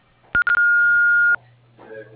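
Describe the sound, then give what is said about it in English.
An answering machine beep before a voice message: a few quick tone blips, then one steady, fairly loud electronic beep lasting about a second, followed by fainter sounds. “To leave a voice message, please speak after the beep.”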